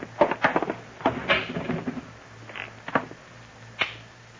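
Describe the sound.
Wooden knocks and clicks of a cupboard being opened to reach a hidden shortwave radio, a quick cluster of thumps and latch clicks followed by a few sparser taps, moderately soft and without voices.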